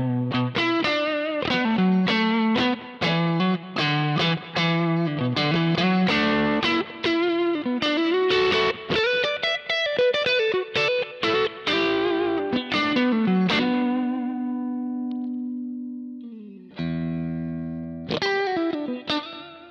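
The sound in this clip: Distorted electric guitar played through a cabinet profile, miked with an M75 Fathead and a 57, chugs through dense palm-muted riffs and chords, holds one long ringing chord that decays, then returns to a short burst of riffing.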